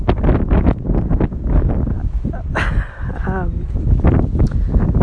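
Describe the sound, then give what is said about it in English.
Strong wind buffets a phone microphone partly covered by a hand, making heavy, rumbling gusts that blur together under a person talking. “it's so windy, I've sort of got my hand over my nose and over the phone hoping that's protecting it”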